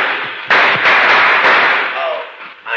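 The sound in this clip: A gunshot goes off during a tense hold-up scene in a 1953 crime radio drama. One sharp, loud crack arrives abruptly, followed by dense noise that stays strong, then dips and rises again.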